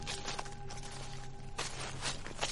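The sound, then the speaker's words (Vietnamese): Footsteps crunch over dry leaves in a field, a few soft rustling steps at a slow, uneven pace. “Nó lắng nghe tiếng bước chân của mình trên nền lá mà rùng mình.”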